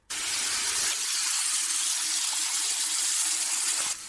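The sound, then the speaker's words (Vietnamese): Water gushes from a bathroom shower as a steady, loud hiss that starts abruptly and cuts off just before the end, unbroken and with no voices. “Anh bước vào trong phòng tắm, ngay sau đó bên trong vang lên tiếng nước chảy ào ào.”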